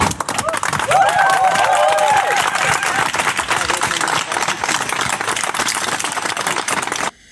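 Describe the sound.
Crowd of protesters clapping at a demonstration: dense, fast, uneven claps with crowd voices mixed in, loud throughout and cutting off abruptly at the end.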